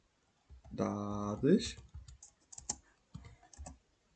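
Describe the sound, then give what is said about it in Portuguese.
Someone types on a computer keyboard with only one hand. After a brief voice, a few scattered, light key clicks follow at an irregular pace. “Atenção, certo estou a escrever só com uma mão, porque o microfone está está tipo à minha frente.”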